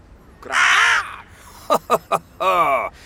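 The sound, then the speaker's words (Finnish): A hooded crow caws loudly: a long, harsh caw, then three short clipped calls in quick succession, and a final drawn-out rasping caw. “Kyllä minä tuon äänen tiedän. No niin. Varis.”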